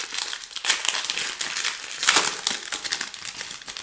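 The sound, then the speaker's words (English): Crinkling plastic rustle as the wrapper of a 2007 baseball card pack is torn open, a loud, continuous crackle with irregular bursts and no talk. “So here's the 2007 baseball pack, and we're going to open that and see what we get.”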